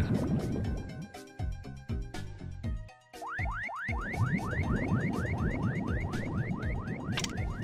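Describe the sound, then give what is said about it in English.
Cartoonish video-game sound effect of fish swimming away underwater: a run of rhythmic bubbly blips gives way to many quick, springy boing-like chirps that swoop upward in pitch and repeat steadily to the end. “Oh, you can actually listen to the fish swim away.”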